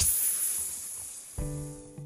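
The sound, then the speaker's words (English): A voice imitates a snake's hiss with a faint, breathy sustained hiss that fades over about a second, followed by a brief voiced sound. “"Hiss," just like a snake.”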